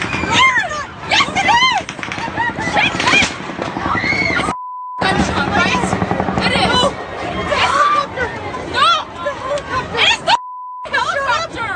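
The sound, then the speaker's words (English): Gunfire and chaos from mass-shooting news footage: rapid, crackling bursts of shots ring out over frantic crowd babble and shouting, broken twice by a brief steady beep. “Of course, it was shocking because of the human horror, but familiar. There were the sounds of a shooting.”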